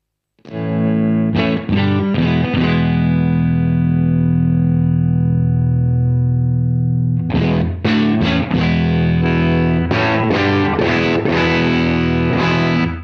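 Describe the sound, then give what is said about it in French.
An electric guitar plays through an amp's super lead channel with the volume controls being adjusted, giving a heavily distorted tone. A few strums feed a long ringing chord, then chords strike again in a rhythmic pattern. “On va monter un petit peu dans les tours, on va d'abord rester en super lead, et puis jouer un peu avec les différents volumes.”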